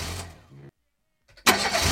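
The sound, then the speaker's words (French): A car engine fails to start because the choke was not engaged. A rough burst of cranking noise fades into a short silence, then a loud, sustained churning burst follows. “Ah, il y a eu un petit problème de démarrage. Voiture. Le starter n'était pas branché. Le moteur a pas voulu.”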